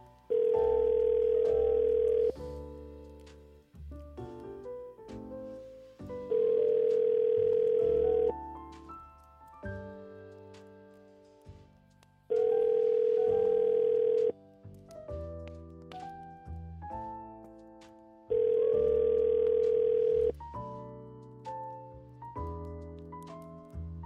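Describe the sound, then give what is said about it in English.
Ringback tone of an outgoing telephone call: four steady, mid-pitched tones, each about two seconds long, spaced evenly with music playing in the gaps between them. “Because it's been a lot of ringing phones this morning.”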